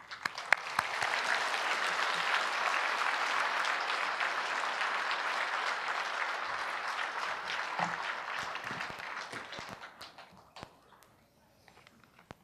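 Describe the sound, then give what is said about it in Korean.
Sustained audience applause in a church welcomes a visiting missionary guest. Dense, steady clapping holds for about ten seconds, then thins and fades out. No one speaks over it. “나오실 때 큰 박수로 환영하시겠습니다.”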